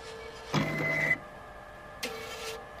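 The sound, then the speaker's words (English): A cash machine dispenses money after a mobile withdrawal of $20 from a current account, with two short, faint mechanical whirs separated by a pause. “All I've done is a mobile transaction, which is ending up with money coming out of a cash machine.”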